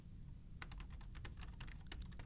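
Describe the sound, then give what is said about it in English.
Rapid keystrokes clatter on a computer keyboard after a short quiet moment. The clicks are quick, irregular and faint. “I'm gonna type for you.”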